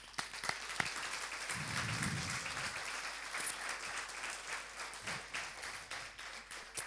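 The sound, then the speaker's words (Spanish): Audience applause at a church service, honoring members of discipleship classes; dense, steady clapping runs through the whole stretch without letting up, with no clear talk over it. “Yo quiero que le demos un aplauso a los que están.”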